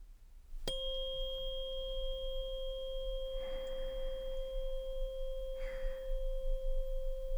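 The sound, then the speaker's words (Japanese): A sleep-aid tuning fork struck once with a sharp attack, then ringing on as a pure, steady sustained tone with faint higher overtones, holding evenly without fading for several seconds. “いい音、音さ、これ好きだよね。”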